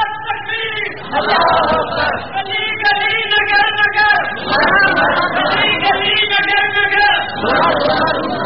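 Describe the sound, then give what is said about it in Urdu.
A crowd at a religious gathering shouts its answer to a chanted slogan, many voices calling loudly together in several long, repeated bursts with short pauses between them. “بہت آہستہ نعرہ لگاتے ہیں، اگر کسی نے نعرہ لگا ہی دیا ہے تو اس کا جواب تو آپ سارے دیں۔”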